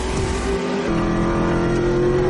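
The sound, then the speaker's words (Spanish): A black Porsche accelerates hard on a highway, its engine giving a loud, steady roar with a strong sustained tone, heard alone without voices. “Navas va en cabeza con su Porsche negro. Pero uno de los Ferraris rojos se pone a la par del otro carril de la autopista. Navas acelera y se mantiene en cabeza.”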